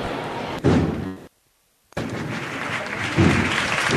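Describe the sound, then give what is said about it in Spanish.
Applause breaking out in San Martín square in Seville during a Holy Wednesday procession. Dense, steady crowd clapping cuts to a brief total silence, then resumes and swells. “Rompe el aplauso”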